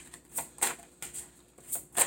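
Tarot cards being shuffled for a reading make several brief, crisp rustling bursts at an irregular rhythm, faint and without talk.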